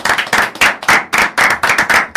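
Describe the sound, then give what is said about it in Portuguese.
Loud, sharp claps from a small studio audience on a morning radio show, greeting a guest with many quick bursts in a fairly regular rhythm and a short break midway. “Uma salva de palmas para o Gonçalo.”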